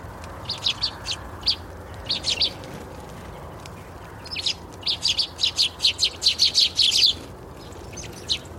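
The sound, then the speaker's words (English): Small garden birds such as sparrows, chaffinches, siskins, and blue, coal and great tits chirp around feeders on a lawn. Bright, high tweets come in quick clusters, building to a dense run of calls before trailing off, over a soft steady background. “The wee birds, the sparrows, chaffinches, siskins, blue tits, coal tits, great tits, that kind of thing, tend to colonise the lower stage. They hop about the lawn and zip up and down to the feeders.”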